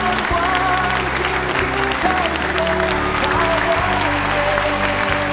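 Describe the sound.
Audience applause in a talent competition hall, dense steady clapping that runs the whole time with music and a voice beneath it.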